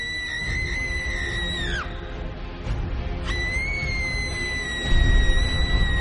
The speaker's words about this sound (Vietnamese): Tiếng hét của nó vang vọng